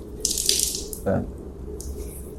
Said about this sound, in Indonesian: ambil airnya, tumpahkan di wajah begini